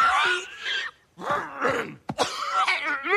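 Strained throat clearing and groaning from a person with something stuck in the throat: several rough, voiced rasping bursts separated by short pauses, with a sharp cough-like catch near the middle.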